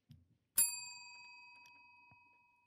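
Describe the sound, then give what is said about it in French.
A small bell strikes once with a bright, clear ding that rings on and fades slowly over about two seconds. A faint soft noise comes just before it. “Et on démarre avec ce petit ding de clochette dans 3, 2, 1...”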